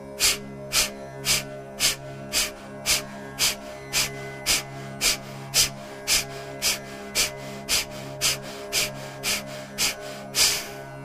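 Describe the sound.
Rapid, forceful breaths from a breathing exercise, repeated many times at a steady, quick rhythm. The sharp, evenly spaced puffs run through the whole stretch at a similar loudness, with a faint steady low hum underneath.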